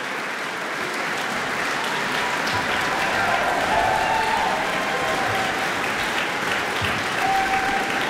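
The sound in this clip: Sustained applause from a concert audience in a concert chamber in Auckland, calling for an encore after a string quartet performance. A dense, even roar of clapping holds steady for the whole stretch, with no voices standing out.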